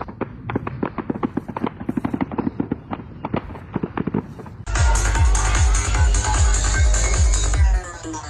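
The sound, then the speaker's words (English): Gunfire at a trance festival, captured on a video: many sharp cracks fire in rapid succession, then give way to a loud, continuous roaring noise that holds for several seconds before cutting off. “I have a video that David Lister actually provided. I'll share it right now. It was around 7, I think, when the shooting started.”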